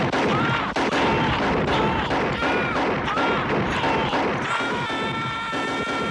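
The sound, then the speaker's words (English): Gunfire from a film scene in which a police robot is shot to pieces: a dense, unbroken barrage of loud shots and crashing impacts, sustained without let-up throughout. “So, at this stage, RoboCop is shot to pieces for 4 minutes.”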